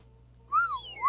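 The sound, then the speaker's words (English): A slide whistle sound effect: one tone glides up and then down in pitch, followed by a second quick upward slide at the end. It is fairly loud over a faint low hum. “Still need the slide whistle.”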